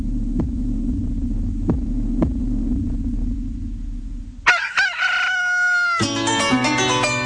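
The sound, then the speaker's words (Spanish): A heartbeat sound effect in a radio station jingle gives a few deep, muffled thumps over a steady low hum, then gives way to bright, sustained musical chords. “La Radio del Sur suena los latidos de la patria grande.”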